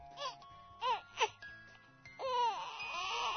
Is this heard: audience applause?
no